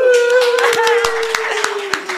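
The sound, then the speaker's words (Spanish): A studio audience applauds with sparse, separate hand claps sounding at uneven intervals over a steady sustained tone. “Gracias, gracias audiencia por los aplausos.”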